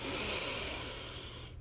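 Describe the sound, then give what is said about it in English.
A single deep inhale, a steady breathy hiss that holds for about one and a half seconds and then cuts off abruptly. No talk. “before we go, I want you to take a deep breath in.”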